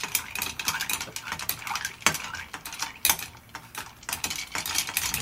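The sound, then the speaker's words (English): A bar spoon stirs a drink in tall glasses, giving many quick, irregular metallic clinks and scrapes against the glass, fairly soft, with no talk. “So let's give it a stir with our bar spoon. These are very tall glasses, so we're going to give them a stir.”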